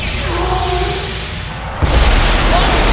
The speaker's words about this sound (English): It's powering up for an ion blast!